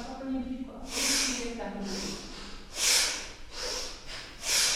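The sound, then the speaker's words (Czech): Forceful human breaths with a harsh, rasping texture like a stiff brush scrubbing a floor. A steady series of loud hissing bursts follows an even rhythm, with a faint low murmur in the first seconds. “Napadá mě, že kdybych nevěděla, že tohle je lidský dech, myslela bych si, že tu někdo drhne podlahu rejžákem.”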